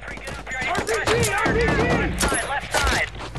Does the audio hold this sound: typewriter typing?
no